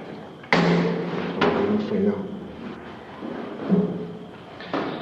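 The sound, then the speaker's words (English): A rotating lighthouse lens being opened out to reveal its electric bulb: a few dull thumps and knocks stand apart amid faint background sounds. “the lens is rotating. You can actually open the lens out, and I'll show you the source of the light, which is an electric bulb.”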